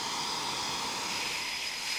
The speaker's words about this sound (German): 10 bis 15 Minuten stehen die Jets jetzt hier noch mit laufenden Triebwerken.